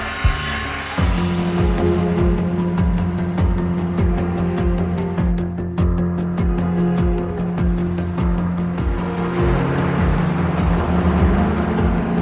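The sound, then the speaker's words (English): A car drives along with a loud, unbroken engine drone: a steady low hum carrying a rapid, regular pulsing throughout. “Charlotte is driving. Charlotte arrives at Jared's house.”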